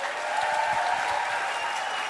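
A studio audience claps to welcome TV host Rachel Ray onto the stage: dense, steady applause that stays loud and even throughout, with no voices standing out.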